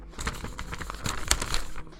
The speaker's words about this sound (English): let me check this piece of paper